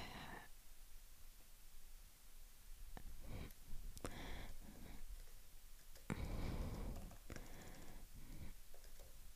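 Quick typing on a computer keyboard as someone writes something during work: many irregular, faint clicks and taps in rapid bursts with brief pauses between them, and no talking.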